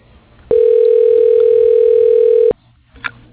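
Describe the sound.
A steady telephone tone sounds while a call is placed to an office extension. It is a single, even, buzzing tone that holds for about two seconds, then cuts off, followed by a brief faint click.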